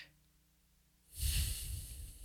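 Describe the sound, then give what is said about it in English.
A long, deep breath during a guided breathing exercise: a second of near silence, then a loud, airy rush of breath that holds steady before easing slightly. “Let's take it in. Exhale it out.”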